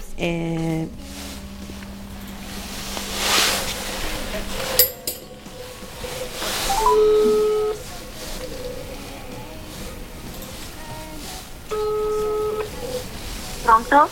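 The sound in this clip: Telephone keypad tones as a call is dialled from a studio: a few short, steady two-note beeps stand out from a low hum and background clatter, with a voice speaking.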